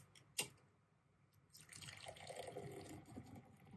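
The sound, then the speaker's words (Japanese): Beer is poured: a single sharp drip-like tap comes first, then a soft, steady, foamy rush of liquid builds and continues. The whole pour is quiet, with no voices. “これはビールを注ぐ音とかね”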